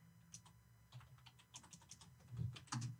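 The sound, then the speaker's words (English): Typing of a name on a computer keyboard: a quick, irregular run of soft key clicks with a few louder presses near the end, quiet and without talk. “Go back to whatchamacallit. Type in her name. Type in the chat.”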